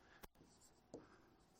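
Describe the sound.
Writing on a board: two brief, faint scratchy strokes, one early and one near the middle, separated by a soft, quiet stretch.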